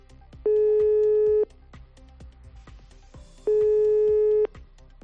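Telephone tone of a call that cannot connect during a power and network outage in Extremadura, Spain: two loud, steady, one-second tones separated by about two seconds, with faint clicks and background noise between them.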